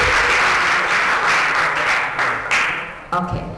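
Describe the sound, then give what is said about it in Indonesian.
Applause from an audience for two expert speakers at a discussion on Chinese culture in Indonesia. Dense, steady clapping sounds loudly and continuously throughout. “Sekali lagi kita memberikan aplaus dulu untuk kedua pakar kita, Bapak Kalim Salam dan Ibu Mira.”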